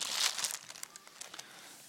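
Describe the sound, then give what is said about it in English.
Brown paper bags being grabbed and crumpled, a dense, continuous papery crinkling and crackling with brief sharper bursts. It is loudest near the start and thins out toward the end. “Now, I want you to reach underneath your seat and grab one of those brown paper bags. Everybody grab a brown paper bag.”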